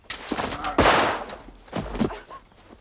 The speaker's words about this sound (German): dieser eigenartige Herr Gontham war angetrunken und schoss wahllos in der Gegend herum.